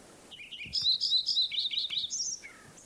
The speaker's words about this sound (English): Lincoln Sparrow number 1 continued at Bluff Lake.